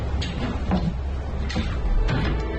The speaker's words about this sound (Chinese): 先打开那边的柜子